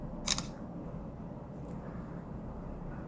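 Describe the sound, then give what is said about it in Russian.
A phone camera's shutter clicks as a photo of printed text is taken. It is a single brief, bright snap near the start over a steady low background hum. “открываю камеру, навожу ее на текст и фотографирую.”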